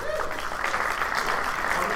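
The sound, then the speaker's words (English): Audience applause at a PAX East panel, given as a show of response to a question about buying a Wii U on launch day. Steady, dense clapping fills the whole two seconds at an even level. “I'm curious, I guess by show of applause, who bought their Wii U on launch day?”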